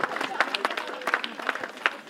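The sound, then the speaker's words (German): People at a neighbourhood community event applaud volunteers, with scattered, uneven claps and crowd noise under people talking. “Einen großen Applaus für alle Ehrenamtliche.”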